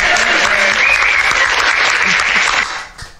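Applause from the audience at a live taping welcoming the co-host: dense, loud, even clapping that holds steady and then fades quickly near the end.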